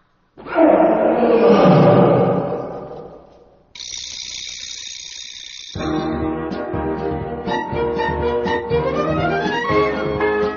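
Lion roaring: one loud, rough, sustained roar lasting about three seconds, followed by a high steady tone and then music.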